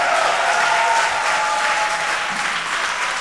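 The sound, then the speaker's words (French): An audience applauding in praise of the Lord at a church service: loud, continuous clapping that stays even throughout, with no speech. “Et tu peux rendre grâce à Dieu et acclamer maintenant le Seigneur. Acclame le Seigneur. Acclame le Seigneur.”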